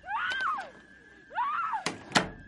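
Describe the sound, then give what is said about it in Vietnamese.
A door being shut. Two long, wavering, creaking tones are followed by two sharp thuds. “Lão đẩy lùi cả người bà Yến vào trong xong đóng cửa lại.”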